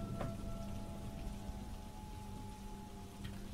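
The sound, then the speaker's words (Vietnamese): Rain falls through the night as a soft, continuous hiss, with a couple of sharper drip-like ticks standing out near the start and end. “Mưa suốt cả đêm hôm ấy”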